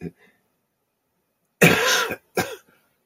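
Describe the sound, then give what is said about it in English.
Coughing from a person with a lingering cough: a harsh burst and a shorter one close behind it, loud and alone after a quiet pause. “Somebody been praying for me because I used to have a cough. Amen. I still cough a little bit”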